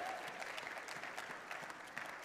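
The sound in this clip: Quiet applause from a church audience clapping for kids ministry volunteers, a soft, even rattle of many hands with a few sharper claps standing out over about two seconds.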